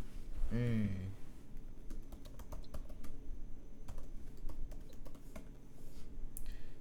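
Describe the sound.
Typing on a computer keyboard: many quick, irregular key clicks run throughout at a fairly faint level, with a brief voice near the start.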